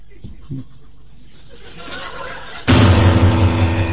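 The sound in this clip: A pistol gunshot in a drama scene: a sudden, loud burst of noise breaks in partway through and stays loud afterward, following a quieter stretch of voices and chuckling.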